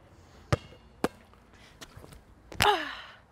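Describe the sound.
Basketball swishing through the net: a few sharp, hollow thumps come first, then a louder, brief rustling rush that fades out.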